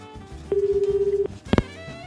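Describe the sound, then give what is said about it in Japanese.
A telephone call being dialed, heard as a sustained electronic tone with a faint fluttering pulse, followed after a short gap by a brief, louder burst of tones. “キヨイから突撃電話、キヨイフォンのコーナー行ってみましょう。出てくれるかな。”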